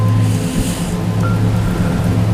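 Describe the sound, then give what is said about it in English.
Flowing water washes steadily with a dense, even rush that never pauses. “Let's just sit here for a little bit and just kind of gather ourselves until we just, instead of just rushing in, just feel the beautiful essence of the water, the piano.”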